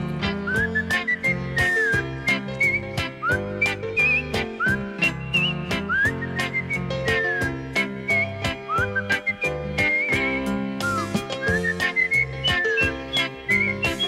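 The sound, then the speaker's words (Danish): Whistling a tune in a Christmas song: a bright, wavering whistled melody of short and gliding notes rides over steady backing music with a regular percussive beat, and no one speaks. “Og så fløjter han den der.”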